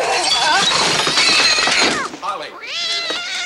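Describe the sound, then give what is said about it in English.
Glass perfume bottles being smashed make a loud, dense crash of shattering glass for about two seconds. A cat's drawn-out, yowling meow follows. “Holly smashes perfume bottles”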